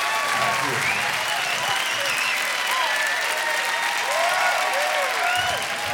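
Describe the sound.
Enthusiastic applause welcomes a band back on stage at a live concert show. Steady clapping runs throughout, with shouts and cheers from the crowd layered on top.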